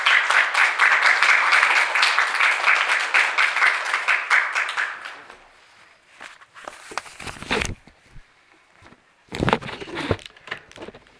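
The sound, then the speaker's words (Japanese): Applause from a gathering welcoming a teacher with thanks to the Lord: dense, steady clapping for about five seconds, then it thins and fades, leaving a few scattered knocks and rustles. “主に感謝を持ってまた先生を歓迎する意味を込めて拍手で迎えましょう。”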